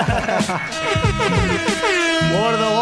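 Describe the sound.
Air horn sound effect blaring loud and brassy through the whole stretch, starting with a few stuttered, wavering bursts before settling into a long held honk.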